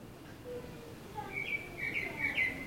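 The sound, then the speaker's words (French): Faint blackbird song recorded through a bathroom window, with a few short, clear whistled phrases rising above a soft, steady background hum. “Là, ce que vous entendez, c'est le merle que j'ai enregistré par la fenêtre de ma salle de bain.”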